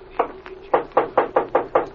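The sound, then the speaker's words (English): Knocking on a house door off a living room: firm knuckle raps, first a single knock and a pause, then an evenly spaced run of several more at a brisk, steady rhythm, with no talk. “Come on in the living room, and I'll knock on Mrs. Croft's door.”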